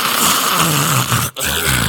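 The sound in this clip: A voice imitates loud snoring with a rough, rasping growl that drones almost without pause. A brief break comes near the end before the snore resumes.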